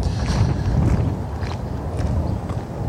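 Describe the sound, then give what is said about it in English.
Wind blowing on a cheap $2 microphone fitted with a windscreen, outdoors near a bridge over a coulee; a continuous low rumbling roar with irregular buffeting thumps. “This is my $2 microphone, and it's got a windscreen, but it's blowing enough right now that I'm worried it won't quite shield out the wind.”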